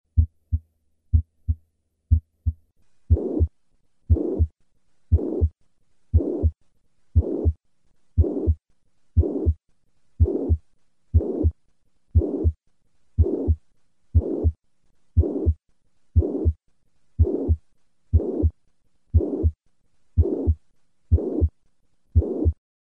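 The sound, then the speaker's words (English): Heart sounds from a patient with mitral regurgitation: a few plain, low thumping beats, then a long regular run of beats, each carrying a high-pitched, blowing holosystolic murmur, steady and evenly spaced, with no voices. “This murmur is high-pitched and blowing in character. Listen to a patient with mitral regurgitation. I will start with 3 normal beats and then add the murmur.”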